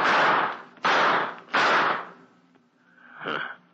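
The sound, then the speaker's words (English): Gunshots fired in a detective drama: three loud, sharp bangs with decaying tails, evenly spaced about three-quarters of a second apart, followed by a fainter, softer noise. “Took a couple of shots at me and ran.”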